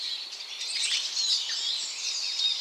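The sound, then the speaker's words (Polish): A Eurasian siskin sings a rapid, jumbled twitter of high, bright chirps that runs steadily through the whole clip, with no voices. “Jego głos jest rzeczywiście taki wesolutki, gadatliwy, pełen radości i już też go zresztą słychać w tle”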